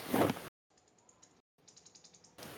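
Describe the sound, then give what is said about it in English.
A typewriter sound effect: quick, light key clacks in two bursts separated by a short pause, with a voice heard briefly before and after. “Typewriter. Who bought the typewriter?”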